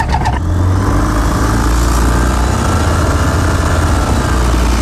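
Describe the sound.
A light aircraft engine starts before takeoff, a short start-up noise giving way to a loud, steady droning roar that holds to the end.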